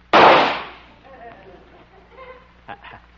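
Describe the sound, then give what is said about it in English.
A single loud rifle shot cracks out as a sharp, booming burst with a short decaying tail. Faint, scattered minor sounds follow. “I'll just take my trusty rifle here and watch me. clearing the bullseye. Here goes.”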